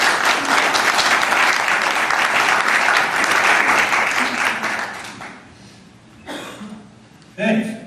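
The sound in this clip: Audience applause welcoming a guest: loud, dense clapping holds steady for about five seconds, then fades, and a voice begins speaking.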